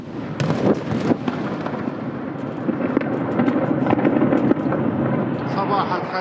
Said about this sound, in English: A new video shows the strikes, which happened early this morning, are in response to rocket attacks aimed at Israel from Lebanon and the Gaza Strip.